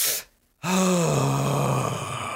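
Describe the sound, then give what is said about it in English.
A person breathes loudly: a short noisy intake, a brief silent pause, then a long, loud exhale voiced with a low, steady groaning tone that tails off. “And then I take loud breaths. You know, some people say deep breaths. Yeah. I like loud breaths where it's,”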